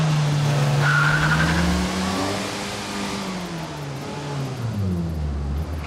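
A car drives off, its engine revving loudly with the pitch repeatedly climbing and dropping as it accelerates, then easing slightly toward the end.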